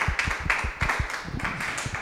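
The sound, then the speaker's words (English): An audience at a talk applauds a speaker with scattered, distinct claps and taps in an uneven rhythm, fairly quiet and sparse rather than a full ovation. “Now let's give Heather a round of applause, please.”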